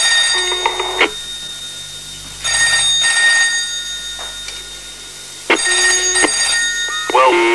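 Telephone bell ringing in repeated bursts of bright, metallic ringing with pauses between them, over a steady low background.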